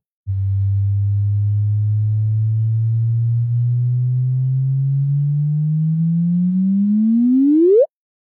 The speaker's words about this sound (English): you basically get just a simple tone that corresponds to the orbital frequency of these two bodies orbiting each other.